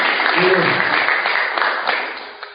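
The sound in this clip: An audience applauds at a public meeting about victims' compensation: a loud burst of clapping with voices mixed in, gradually tapering off over a couple of seconds.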